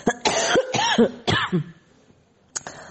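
A woman recovering from an illness coughs hard, a few harsh, raspy coughs in quick succession, then a pause and one more short cough.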